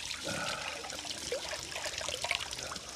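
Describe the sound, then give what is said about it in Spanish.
Water splashes and trickles as an old man washes his face at a bathroom sink in a care home. The running, splashing water is soft and steady, with no speech. “Se lava la cara y contempla su rostro en el espejo del baño.”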